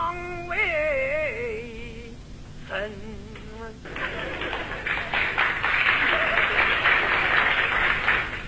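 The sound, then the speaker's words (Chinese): Sparse audience applause at a comedy show breaks out after a sung line with sliding vocal tones, a scattered, fairly loud patter of clapping from a small portion of the crowd that lasts about five seconds. “鼓掌的人不多呀”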